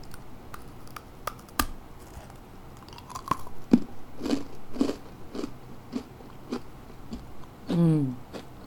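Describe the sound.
Someone bites and chews a slightly spicy ginger biscuit. Many irregular, crisp crunches sound, and a short voice follows near the end.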